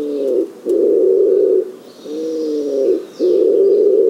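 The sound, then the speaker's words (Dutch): A male bird's nest-grunting call at a nest site: two heavy, buzzy two-syllable grunts, each a short low note followed by a longer harmonic-rich one, loud and alone. “mannetje zoekt de plek voor het nest en begint dan te nestgrommen. Dat is een tweeletterig, ja, een beetje een soort grunten noem ik het.”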